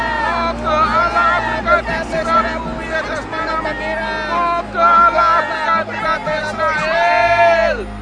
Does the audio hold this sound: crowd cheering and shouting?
yes